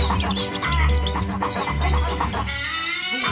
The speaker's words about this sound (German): Abschnitt Nord aus Ebershöfe, bitte vorsichtig mit den Küken! Bringen Sie zu mir die Küken, bitte!